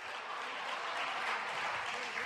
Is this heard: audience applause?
yes

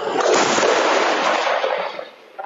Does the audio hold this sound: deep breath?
no

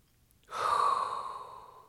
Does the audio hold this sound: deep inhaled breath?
yes

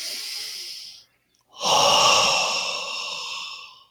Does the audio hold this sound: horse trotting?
no

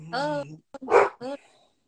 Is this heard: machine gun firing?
no

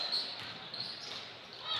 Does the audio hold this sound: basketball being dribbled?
yes

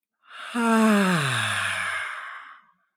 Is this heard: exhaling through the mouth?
yes

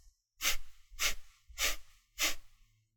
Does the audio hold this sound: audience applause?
no

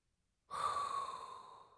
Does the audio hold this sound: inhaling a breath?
yes

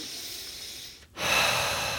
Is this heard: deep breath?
yes

